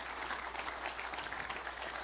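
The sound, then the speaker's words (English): A church audience applauding during a sermon: faint, dense, steady clapping from many hands, continuing without a break. “Come on, somebody. Give him a good clap offering there. Come on.”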